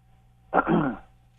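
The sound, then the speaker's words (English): A single short throat clearing, a rough burst of under half a second heard alone over a faint, steady electrical hum. “Not sure how I should take the clearing of the throat, if that's a good thing or a bad thing.”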